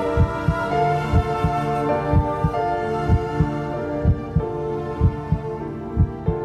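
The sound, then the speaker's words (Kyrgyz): A heartbeat thuds in a steady, regular rhythm of many soft low pulses beneath a sustained tonal drone. “Дүк-дүк-дүк, аяр жумшак какканда, дүн ойгонуп, канайланып акканда, алгач ирет ушул үндү эшиткем апакемдин курсагында жатканда.”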